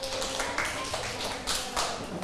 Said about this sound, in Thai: นักเรียนเห็นด้วยกับเพื่อนไหมคะถ้าเห็นด้วยปรบมือให้กลุ่มสุดท้ายด้วยค่ะ